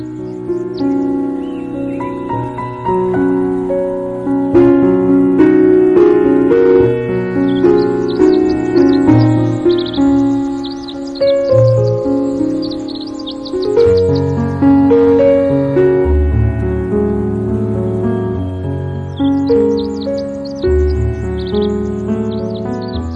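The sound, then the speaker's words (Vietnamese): Small birds singing, high, quick chirps and twitters heard over loud, sustained instrumental music that carries throughout. “Trong khi lắng nghe tiếng hót của những con chim nhỏ”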